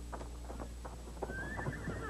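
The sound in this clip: Galloping horse on the western frontier, ridden toward a fort, with quick, steady clip-clop hoofbeats throughout and a thin rising tone laid over the second half.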